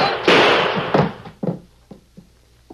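A gunshot in a radio drama scene with a sheriff: one loud, sharp blast with a broad decaying burst, followed by several lighter thumps that grow fainter.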